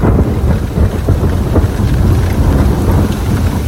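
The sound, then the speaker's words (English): A thunderstorm with heavy rain and thunder: a loud, unbroken wash of rain over deep, low rumbling throughout, with no voices. “those were the thunderstorms keeping people awake last night”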